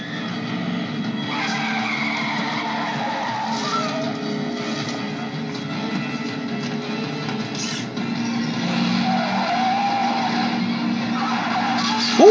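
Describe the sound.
Tires skid loudly as a car spins around, a continuous rough screech and roar that fills the whole stretch, growing somewhat stronger toward the end and closing on a sharp, brief burst.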